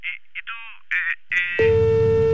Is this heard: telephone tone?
yes